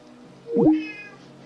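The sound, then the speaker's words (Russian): A cat meows once behind a closed door, wanting to be let into the room; a single drawn-out, mid-pitched cry, fairly loud against a quiet background. “у меня тут он кот под дверью мурлыкает, кричит там, чтоб я его впустила в комнату.”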